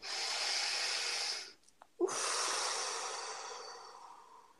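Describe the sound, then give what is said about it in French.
A deep breath taken during a guided meditation: a long, airy breath, a brief pause, then a second long breath that trails off slowly, with no talking. “Alors une respiration.”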